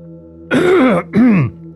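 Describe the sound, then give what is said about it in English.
A wizened, hunched-over man coughs loudly, giving two harsh, throaty bursts with a short pause between them. The coughs are voiced and sound like a rough clearing of the throat, with no one talking around them. “you see this dockmaster, wizened man that's hunched over, coughing loudly with a can of soda in his hand”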